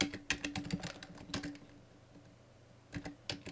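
A password being typed on a computer keyboard: a quick run of many clicking keystrokes, then a short pause, then a few more taps, all fairly faint.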